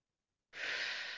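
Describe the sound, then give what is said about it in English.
A single deep breath drawn in through the nose as part of a conscious breathing exercise, an airy hiss that begins abruptly after silence and holds steady to the end. “3 to 4 deep breaths in through your nose with long exhales through your mouth. So like this, going in, holding it for 4,”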